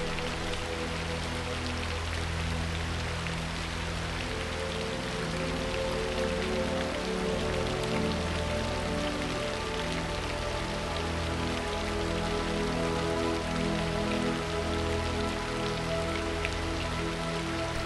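Rain falls steadily on a surface, a dense, continuous patter that stays loud and even from start to finish with no pauses.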